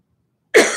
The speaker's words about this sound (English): My apologies. I got something in my throat here.